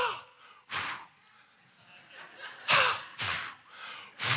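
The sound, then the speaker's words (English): Forceful breaths are blown out to demonstrate breathing on people, heard as a few short, airy exhalation bursts separated by quiet gaps. “He's doing that for every person. This is the scripture. He breathed on them, not close to them, on them.”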